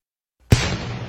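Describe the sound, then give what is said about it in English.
A single cannon blast from a 21-gun artillery salute fired by the U.S. Army 101st Field Artillery Regiment: a sudden loud boom after silence, trailing into a long rumbling decay. “Reenactors heard this 21-gun salute this morning from part of the U.S. Army 101st Fuel Artillery Regiment.”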